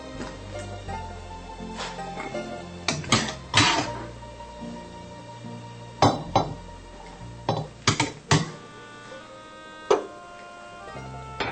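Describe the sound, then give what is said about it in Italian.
Cooked gnocchi are scooped out of a pot after the gas is turned off. Many irregular metallic clinks and taps of a utensil against the pot ring out, some in quick clusters, over a quiet background. “Chiudo il gas, preleviamo i gnocchi.”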